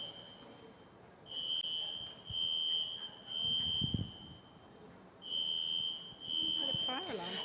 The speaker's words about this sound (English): it's not a fire alarm. It is an alarm